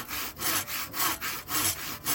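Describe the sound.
A saw cuts through wood in steady back-and-forth strokes. Each stroke is a loud, rasping hiss, and the strokes repeat at an even pace with no voices.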